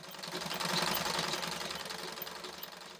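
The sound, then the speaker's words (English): A pedal-operated sewing machine stitching uniforms: a quiet, continuous, fast rhythmic mechanical chatter with a steady low pulse. “That's why I came here to sew tonight. This machine works with a pedal, which is why I came here.”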